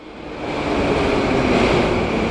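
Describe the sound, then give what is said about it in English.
A metro train pulls into an underground station in Moscow in the morning. A loud broad roar swells over the first second and then holds steady, with a thin high whine running through it. “A morning train pulls into Begovaya Station in the Moscow underground”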